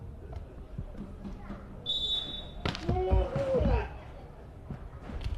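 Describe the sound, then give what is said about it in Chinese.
A referee's whistle at a Qingdao volleyball match, one sharp high-pitched blast calling a double-contact fault, with a commentator talking and court noise around it. “裁判这时候呢哨声响了，也是吹罚了青岛市二队队员的连击。”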